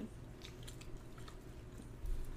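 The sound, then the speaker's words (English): Faint chewing of hard-to-chew food, with soft crunching and squishing mouth sounds repeating steadily. The sound is quiet and has no talk over it. “It's so hard to chew. This is good.”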